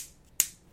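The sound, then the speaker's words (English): A fingernail clicks a small eraser pocket once, a single sharp, bright click after near silence that fades quickly. “clicking a little eraser pocket with her fingernail.”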